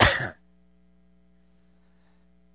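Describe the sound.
A single short, rough throat clearing comes at the start, loud and abrupt, then cuts to near silence with only a faint, steady low hum.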